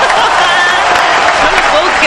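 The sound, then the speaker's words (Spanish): Audience applause fills the whole two seconds as a loud, dense, continuous wash of clapping, with voices faintly mixed in. “Bueno, esto merece un aplauso, un chicos. Aplauso.”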